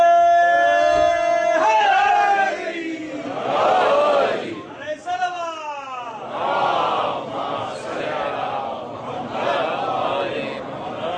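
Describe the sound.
A crowd at a religious gathering chants slogans in several loud waves of voices, with tonal, rising calls that swell and fall between short pauses.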